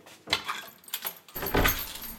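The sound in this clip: A heavy door to a basement record room is opened, with scattered rattling clinks and scrapes followed by a deep, solid thud about two-thirds through, then a sustained low rumble.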